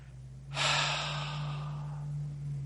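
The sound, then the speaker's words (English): A long, steady breath out during a deep, centered breathing exercise: the airy rush starts suddenly and is held evenly to the end over a constant low hum. “it says, breathe. Now, it's not because I'm not breathing, but it's an exercise of practicing deep, centered breathing.”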